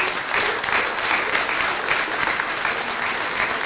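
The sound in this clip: Applause for an artist at an event: a dense, steady crowd clapping that holds at an even level for several seconds without pause.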